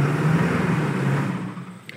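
A motorhome engine drives along with a steady low hum over broad road noise. It eases slightly toward the end, where a brief tick is heard.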